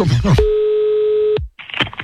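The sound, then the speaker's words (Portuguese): An outgoing phone call's ringback tone: a single steady, even beep about a second long, with people speaking just before and after it. “Eu vou ligar agora pra Cirleia. Ela tá chamando.”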